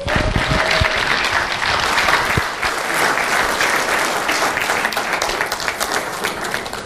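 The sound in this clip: Applause from an audience welcoming a preacher: loud, dense, continuous clapping from many people that keeps an even level for about seven seconds.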